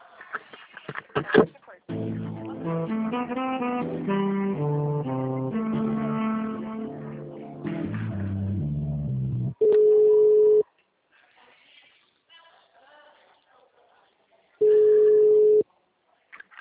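Telephone tones while a call is transferred: a stepped electronic hold melody plays for several seconds, then two long, steady, mid-pitched beeps sound with a silent gap between them.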